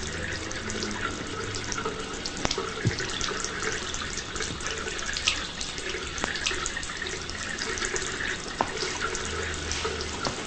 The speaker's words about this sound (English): As Davis washes his injured hand, Liz walks to the bathroom doorway.